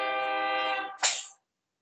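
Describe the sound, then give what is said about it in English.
A passing train's horn gives one steady, harmonic blast of about a second, followed by a short noisy burst before it cuts off; faint, with no talking. “are you noticing the Holly trains? Yeah. In our podcast. It's part of the ambiance of the show.”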